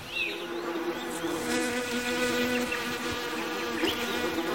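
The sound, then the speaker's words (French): Iridescent flies buzz steadily around a body lying outdoors near a house, a dense, continuous insect drone with a few brief higher whines layered on top, alone without talk. “Une fourmilière s'est attaquée au corps d'Everaldo et des mouches irisées bourdonnent et pondent sur lui.”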